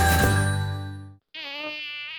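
A mosquito buzzes in an insect repellent advert: a loud, thin, reedy whine that cuts out for a brief moment, then returns at a higher pitch.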